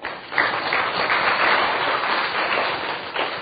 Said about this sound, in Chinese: 好，我们拍手。